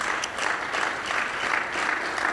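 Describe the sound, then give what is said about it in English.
A church audience claps together in the sanctuary, a steady, even patter of applause held at a fairly soft level for a couple of seconds, with no voices rising over it. “Let's give the Lord a good clap offering.”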